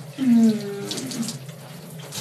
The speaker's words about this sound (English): And now I'm just having a shower, nice and clean.